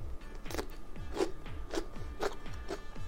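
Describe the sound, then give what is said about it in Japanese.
Crisp, crunchy bites and chewing of a raw, pesticide-free cucumber cut into a stick, with a firm skin and soft seeds. Several sharp crunches come in a steady, even rhythm. “まず生きゅうりからいただいてみたいと思いますちょっとねスティック状に切ってみましたいただきます”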